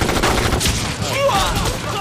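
Gunfire volley from soldiers firing together in a close-range battle ambush: a loud, dense burst of overlapping shots that forms an almost continuous crackle for about two seconds.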